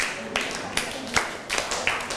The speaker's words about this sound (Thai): นั่งลงได้ปรบมือให้กับเพื่อนครับ